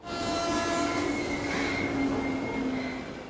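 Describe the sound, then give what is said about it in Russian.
A train rumbles past as a broad, steady roar with faint sustained tones riding on top, swelling in quickly and easing off slightly near the end. “Движение продолжится через 2 минуты. Состав должен пропустить экспресс.”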